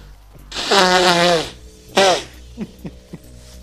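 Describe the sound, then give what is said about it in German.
Someone blowing their nose: a long, loud honking blow, then a shorter second blow, followed by a few soft, faint sounds. “Ja, warte, ich verwirre die Leute, indem ich einfach die Nase putze.”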